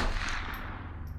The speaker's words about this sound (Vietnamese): Tranh thủ lúc chưa quá đau, anh vẫn tiếp tục chạy tới, nhưng chưa kịp làm gì gã đã ăn thêm một phát nữa.